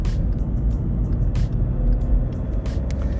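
Steady low rumble of a car being driven on a road, engine and tyre drone holding throughout, with a few faint high clicks scattered over it and no voices.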